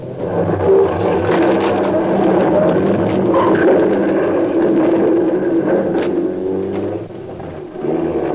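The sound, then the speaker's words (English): A car engine revs hard while the car drives through the back of a garage during a getaway. It is a loud, steady roar for the whole clip, with a brief dip near the end. “I had to drive through the back of the garage or else go out in the front.”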